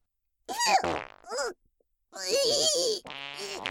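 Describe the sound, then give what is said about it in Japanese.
A fart sound in a few loud raspy bursts, with buzzing, groan-like tones broken by short gaps and no other sound around them. “いや、おなら出ちゃう。汚い音で、おなら、お漏らししちゃう。”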